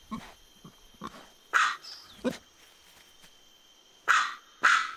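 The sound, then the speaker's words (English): A man imitates a dog barking, producing gruff, punchy barks meant to scare off a pig. A few faint, short yaps are followed by several loud, rough barks spaced unevenly. “He can also do the local dogs. Pigs don't like dogs. So what will this pig think about a bark with more bite?”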